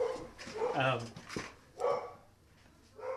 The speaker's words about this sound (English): That's my dog. If anyone can hear that. A ferocious Labrador.